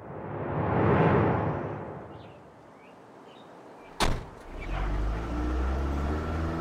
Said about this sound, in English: Well, this has been the most enlightening taxi ride.